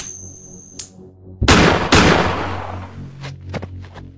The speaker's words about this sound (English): Two shots to the head.